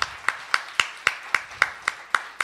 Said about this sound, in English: Give a round of applause for Thane and Living Jazz